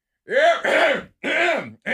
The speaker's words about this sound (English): Oh, you give a little cough.